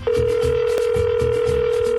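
A telephone tone rings out while a caller waits for an answer, one steady, unbroken mid-pitched tone held throughout, with low rhythmic rumbling beneath it.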